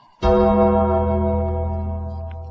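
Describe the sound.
A single gong strike marks an entrance at a professional wrestling event. It starts with a sharp loud hit, then a long, rich metallic ringing full of layered tones that slowly fades.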